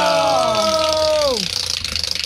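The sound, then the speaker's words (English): A prize wheel spins in a cash game with $50 and $100 slots. A sustained tone falls in pitch, then quick rattling clicks tick steadily as the wheel turns. “Okay, do you want to spin the wheel? Yeah, I'll spin the wheel. All right, there's as much money on the wheel, $50, $100. Spin the wheel times three. Here we go. 1, 2, 3, spin the wheel!”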